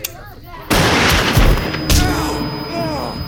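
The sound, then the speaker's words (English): Gunshots in a tense armed standoff: a loud, sharp blast cuts in, then a second crack follows about a second later, with dense noise sustained between and after the shots. “See, the difference between you and me is I don't do warning shots.”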